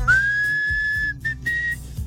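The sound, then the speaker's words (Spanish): Clear melodic whistling opens a rock song with one long steady note, then a short note and a second sustained tone, bright above a faint low background. “y empieza chiflando y así como romanticón, empezaba la rola.”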